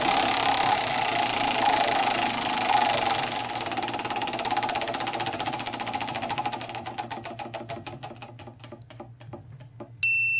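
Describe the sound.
A prize wheel spins with rapid clicking that gradually slows and spreads out until it stops, followed by a short bright chime, over a low steady hum.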